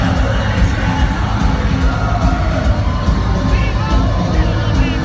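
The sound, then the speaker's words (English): A concert audience sings along together, a dense, loud wash of many voices with scattered shouts, continuous and even from start to finish. “In this bit, you'll hear him singing badly. In fact, you can hear the audience singing more than he does.”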